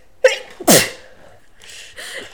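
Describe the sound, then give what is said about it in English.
A sneezing fit: two sharp, loud sneezes in quick succession, followed by softer, breathy bursts, with no talking. “babe's having a sneezing fit.”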